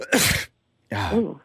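Two short, rough coughs from someone with allergies, made while putting fondant on a cake. Each burst is harsh and breathy with some voiced rasp, separated by a brief silence.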